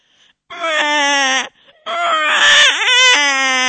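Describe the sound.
A person's voice imitates a crying baby with two loud, harmonic wailing cries, a shorter steady one and then a longer one that wavers and breaks in pitch.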